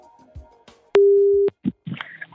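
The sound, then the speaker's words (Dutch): A telephone tone heard while placing a call: a single steady, mid-pitched beep lasting about half a second and standing out loudly, followed by a few brief clicks. “Bellen met Saskia van Bergen, hoofd dienstverlening en collectieinformatie van bijzondere collecties. Kijken of ze er is.”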